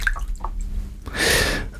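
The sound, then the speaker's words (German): A piece of torn paper dropped into water makes one soft, hissing splash that swells briefly and then fades. A few faint small ticks come before it. “Erstmal schmeiße ich ein Stück Papier ins Wasser. Passt nicht komplett, ich reiß was ab. Ab ins Wasser.”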